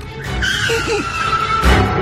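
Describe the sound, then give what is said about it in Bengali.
A car braking hard and suddenly, its tires letting out a sustained high screech over a steady road rumble, with a louder burst of noise near the end. “হঠাৎ সজোরে break কষে গাড়িটা, একটা ঝাঁকুনি লাগে সায়নের শরীরে”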